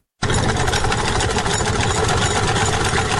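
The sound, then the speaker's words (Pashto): A hand-turned sewing machine stitching clothes in Nuristan starts abruptly and runs as a steady, rapid mechanical clatter, loud and unbroken to the end with no talk. “د کالیو ګنډلو ماشین د چرخ تاوولو سره غواړي چې د خپل ژوند لومړنۍ اړتیاوې پوره کړي.”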